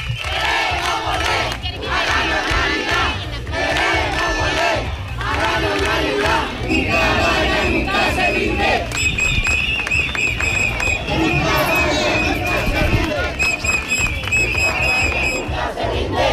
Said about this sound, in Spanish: Estos son algunos de los cánticos que se escuchan durante todo el recorrido.